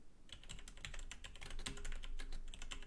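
Quiet, rapid typing on a computer keyboard, many soft keystrokes clattering in an uneven, continuous stream with no one speaking.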